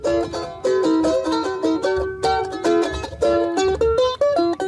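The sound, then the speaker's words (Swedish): A charango, a small South American guitar, is plucked in a bright, ringing melody. The high, twangy notes come in quick, rhythmic runs with a steady pulse and no voices. “har du hört talas om instrumentet charango?”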